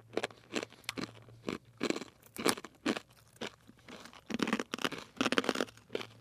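Crunching of broken garlic-flavored pretzel pieces being chewed, many sharp, irregular crackling bites, faint overall and heard alone.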